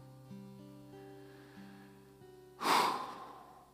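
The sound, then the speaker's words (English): A single deep breath, a loud airy inhale that swells and fades, following soft sustained musical tones. “Just taking a deep breath to remember receiving that great promise.”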